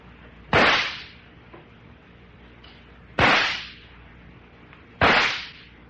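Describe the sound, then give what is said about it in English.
Three revolver shots fired in succession during target practice: sharp, loud cracks a couple of seconds apart, each trailing off in a short decaying tail, with no talk. “Now try again. And fire 3 shots in succession.”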